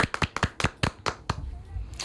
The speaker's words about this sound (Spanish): Un aplauso. Un aplauso para Eva.